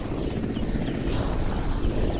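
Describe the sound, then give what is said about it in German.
A military helicopter flying soldiers into a camp in Afghanistan: a steady, heavy rotor roar with a regular chopping beat and a faint high whine, with no voices. “Die deutschen und internationalen Soldaten fliegen nur noch mit Hubschraubern in das afghanische Camp.”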